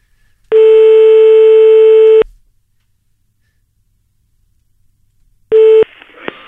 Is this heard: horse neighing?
no